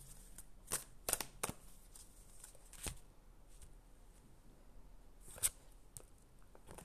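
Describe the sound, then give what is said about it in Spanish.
Tarot or oracle cards being shuffled by hand: a few crisp riffling bursts and soft snaps, strongest near the start and again later, spread over a quiet stretch of faint papery rustling with no voices. “Yo mezclo las cartas y estoy dando aquí todo”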